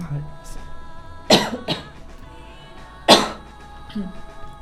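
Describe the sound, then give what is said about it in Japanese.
A person chokes and coughs mid-conversation. There are a few harsh bursts, two of them loud and sharp, separated by quieter throaty sounds and breaths. “失礼いたしました。むせております。”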